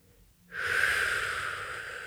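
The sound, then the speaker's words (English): One long, breathy exhalation during a guided breathing exercise, starting after a brief silence and continuing as a steady, soft airy rush to the end. “We'll start with an exhalation.”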